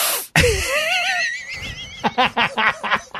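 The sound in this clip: A loud, sharp wheezing inhale with a squealing, wavering pitch, followed by a run of short breathy bursts.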